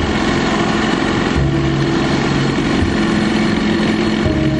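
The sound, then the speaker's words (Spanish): Engine of a German boat pulling away from the coast during World War II: a steady, loud, continuous drone that holds an even pitch throughout. “El barco alemán se aleja de la costa.”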